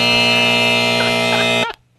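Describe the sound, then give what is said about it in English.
Loud buzzer sounding during a college football picks game segment: one steady, harsh, buzzing tone held for under two seconds, then cut off abruptly, with no talk over it. “if you weren't counting the buzzers and dings there”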